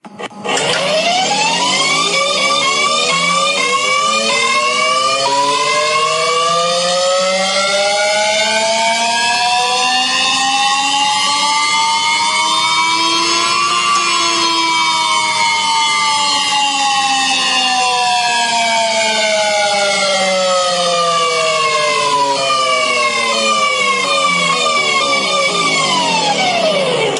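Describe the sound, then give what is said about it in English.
A hover bike's powerful, loud whining drone, thick with harmonics, climbs steadily in pitch for about half its length, then slides back down just as steadily, continuous and alone throughout. “That's the hover bike.”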